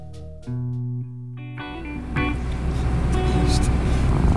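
A car drives out of a village. A few sustained electronic tones come first, then a broad engine and road rumble builds and grows steadily louder.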